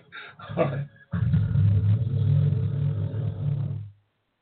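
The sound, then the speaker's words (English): Car tires doing a burnout give a brief rough burst and then a loud, sustained low roar for about three seconds before it cuts off sharply. “Did you hear the melodic sounds of tires doing a burnout?”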